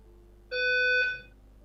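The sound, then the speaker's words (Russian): A fire alarm goes off: one piercing, harmonically rich electronic tone holds for under a second, then cuts off and leaves quiet. “Пожарная сигналка. Давай я пока выключу микрофон, ты пока можешь почитать что-то из чата, потому что, ну, это минус уши у всех.”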